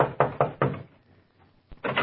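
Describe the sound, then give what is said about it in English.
A fist pounds on a door: a few heavy, evenly spaced thuds, a short pause, then more thumps, loud and alone. “And you pray there's still someone in the copy room as you pound on the door.”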